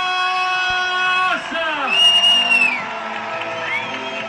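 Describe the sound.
Spectators cheer and whoop for a runner at the Diagonale des Fous 2023 trail race, a swelling crowd roar under an announcer's voice, with sustained tonal sounds running through the background.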